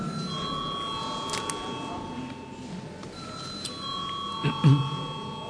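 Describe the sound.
An electric bell rings in a parliament chamber ahead of a vote, a sustained ringing tone that carries on with brief breaks for several seconds over low room murmur.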